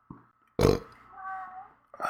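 A burp during a rye beer tasting: a short throaty blurt, then a loud rough burst, then a drawn-out lower rumble, with a brief sound at the end.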